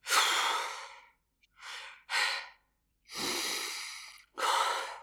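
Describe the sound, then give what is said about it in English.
Heavy breathing from a man still winded after exertion, his uniform soaked with sweat: five loud, rasping breaths, long and short in turn, separated by brief silent pauses. “Arthur peels off his sweat-soaked uniform. He still hasn't caught his breath.”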